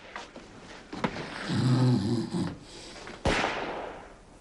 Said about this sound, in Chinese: 听着李云龙震天的呼噜，谁也不愿意叫醒他。